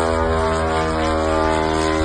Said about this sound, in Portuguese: Moradores do Tartaristão, uma província a 1.000 quilômetros de Moscou, registraram a chegada dos drones kamikazes disparados pela Ucrânia.